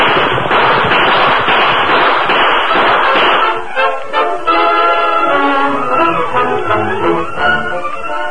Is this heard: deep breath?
no